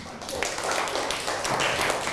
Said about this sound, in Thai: ดีมากครับปรบมือครับ